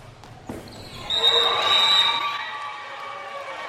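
A goalball thrown across the court lands with a dull thud, followed by a bright, sustained jingling ring as it rolls, the ringing gradually fading.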